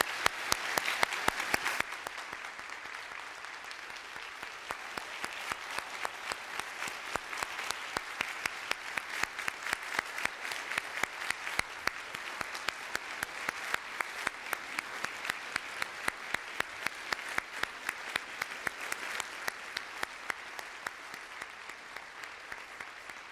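An audience applauds, first with scattered clapping and then a long, fairly quiet stretch of steady, rhythmic clapping in unison.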